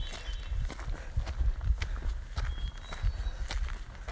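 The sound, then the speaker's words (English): Footsteps of a hiker on a woodland trail, many soft, fairly steady steps thudding and crunching quietly one after another. “I'm walking through the woods.”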